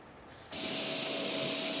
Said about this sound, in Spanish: En este momento el robot está preprogramado para cortar moldes destinados a obras de arte de gran escala.